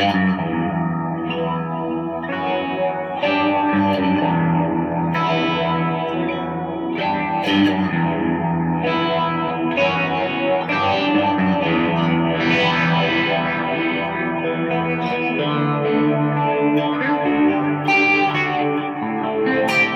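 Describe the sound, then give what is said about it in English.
Electric guitar played through a phaser pedal during a guitar lesson on effects pedals, alone. Chords and single notes carry a swirling, sweeping modulation across a continuous phrase. “And that's a slightly different take on it, but I thought the phaser was kind of cool.”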